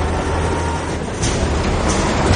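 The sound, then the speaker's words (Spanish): Military trucks carrying rebel guerrilla fighters drive along a dirt road through mountains under a cloudy sky, heard as a steady, dense, loud engine-and-road rumble throughout with no voices. “Los camiones con guerrilleros del ejército rebelde avanzan por un camino de tierra entre las montañas bajo un nublado cielo.”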